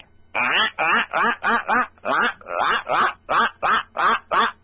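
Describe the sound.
A duck quacks in a quick, steady run of many loud, raspy, nasal calls, each short burst following the last with barely a pause.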